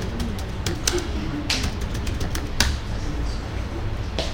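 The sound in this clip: Typing on a computer keyboard produces scattered, faint keystroke clicks in irregular bursts over a steady low background hum.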